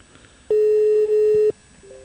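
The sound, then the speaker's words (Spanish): A steady telephone line tone on a raw call, one loud, even beep lasting about a second, with faint hiss before and after it. “Ah, ahí está, es una llamada y está en crudo.”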